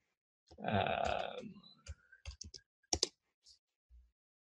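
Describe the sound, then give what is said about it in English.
A few sparse, separate clicks of a computer keyboard as an address is typed in, each sharp and quiet, coming after a short, louder rustling noise. “So I can type in an address here.”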